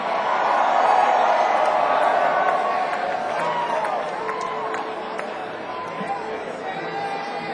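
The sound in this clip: An audience cheers and whoops to welcome a guest onto a stage, a sustained roar of many voices and calls that stays loud throughout and eases a little toward the end.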